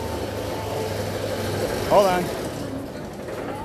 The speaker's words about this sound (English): What you heard there was the sound of the chain lift motor.